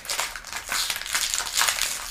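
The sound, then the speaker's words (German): A fortune cookie's wrapper crinkles and crackles as it is unwrapped, a steady, bright rustle that lasts about two seconds without pause. “Okay, wollen wir deinen Glückskeks einmal auspacken?”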